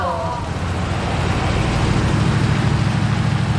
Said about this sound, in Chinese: 哎，你们快看那辆大 G， 好像整个金海就这一辆哎。 谁的车？ 长征集团的。 还往我们这边走，